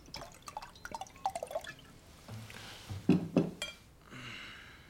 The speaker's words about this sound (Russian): Наливает вино, изящно управляясь с бутылкой и бокалами.